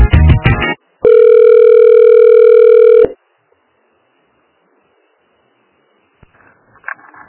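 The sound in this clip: A telephone line tone plays while a call to a municipal office is being transferred: a short burst of mixed tones, then one steady, even tone lasting about two seconds, followed by near silence with faint noise at the end.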